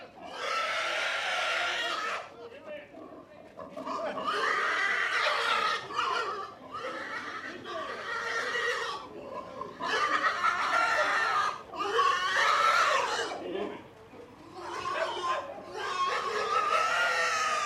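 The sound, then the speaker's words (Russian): A pig squealing while being slaughtered: harsh, shrill screams come in many bursts separated by short pauses, fairly faint throughout. “Зарубили свинью.”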